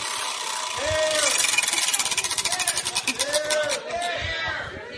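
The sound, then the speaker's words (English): A prize wheel spins, producing a rapid run of ticking clicks from its pointer that continues under people talking. “Okay. Spin the wheel.”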